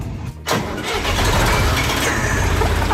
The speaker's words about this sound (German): Ein Fendt-Gerätetraktor mit Kipper vorne dran aus dem Jahr 1977.